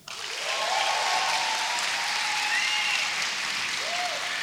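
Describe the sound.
Audience applause from a live crowd in a hall: dense, steady clapping that starts sharply and holds at an even, loud level throughout, with no voices standing out.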